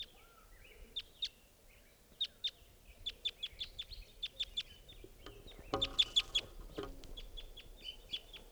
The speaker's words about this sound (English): It's flying around. Wild bird.